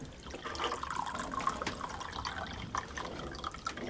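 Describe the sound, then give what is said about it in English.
Tea pours from a teapot into mugs in a faint, steady liquid trickle that runs unbroken for a few seconds. “Les, who discards the cosy and concentrates hard on pouring the tea”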